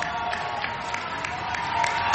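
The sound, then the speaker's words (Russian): Audience applause and crowd noise blend into an even wash of clapping with faint cheering. The level stays steady and moderately loud, swelling slightly toward the end. “Ну вот она заработала вот эти аплодисменты от Джамалы.”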